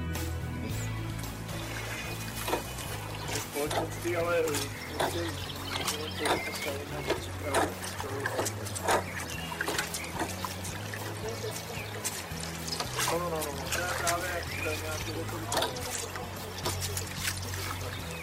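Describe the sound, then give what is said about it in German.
Rowers row boats on the Elbe river, with oars splashing and water trickling and pouring in an uneven, repeating rhythm. The sounds are fairly quiet over a low steady hum, and faint voices are mixed in. “Es sind die Ruderer an der Elbe.”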